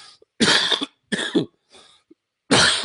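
Harsh coughing from a person choking on phlegm after laughing: four rough, throaty bursts, the third softer than the others, heard alone with short silent gaps between.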